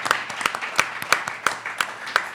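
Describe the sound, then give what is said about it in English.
A small live audience applauds an author at a radio taping. Sparse, crisp hand claps come in an even, regular rhythm with softer claps between them, sounding like only a few people clapping. “Please give it up for him and his brand new book, An American Summer.”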